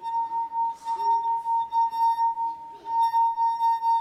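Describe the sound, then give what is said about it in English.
A wine glass sings as a wet finger rubs around its rim, giving a steady, pure, sustained ringing tone. Its loudness swells and dips in a regular rhythm with the strokes. “You alternately get slipping, sticking, and that causes a vibration. And so if I do that with a wine glass,”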